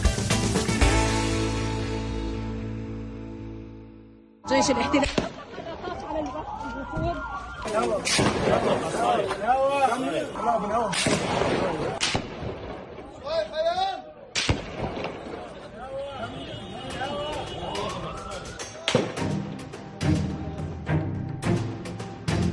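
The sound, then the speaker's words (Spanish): Israeli soldiers fire on a visiting diplomatic delegation in Jenin, northern West Bank. Sharp, loud gunshot bursts crack out repeatedly amid shouting voices and a wailing tone, in an uneven, chaotic stretch of noise. “Eso que escuchas es el momento en el que soldados israelíes disparaban a una delegación diplomática mientras hacían esta mañana una visita en la localidad de Jenin, al norte de Cisjordania.”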